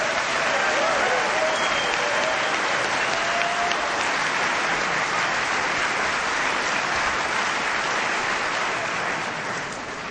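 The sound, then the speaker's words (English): Sustained applause from an audience at a Bristol reunion gathering, welcoming a speaker who is celebrating a sobriety birthday. The clapping is dense and loud, holds steady, and eases slightly at the very end. “please give a warm Bristol reunion welcome to Clancy”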